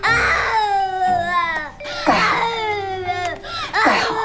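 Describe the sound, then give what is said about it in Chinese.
An infant cries in loud, wailing bursts with harmonic tones that sag in pitch, separated by brief gasping pauses, while an adult tries to soothe the baby. “哎呀，你别哭，你别哭，我求你了，我求你了，不哭了，不哭了。”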